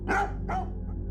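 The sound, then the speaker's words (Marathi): A dog in a lane, alert and facing a closed room, gives two short, sharp barks in quick succession, loud over a low steady rumble. “त्यानं गुरगुर चालू केली आणि ते समोरील खोलीकडे बघून भुंकू लागलं”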